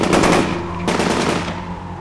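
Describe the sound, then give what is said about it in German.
Rifle volley from a firing squad at an execution behind the Eastern Front in 1941: a loud crackling burst of overlapping shots, then a second sharp report that rings and slowly decays. “Legt an! Und Feuer!”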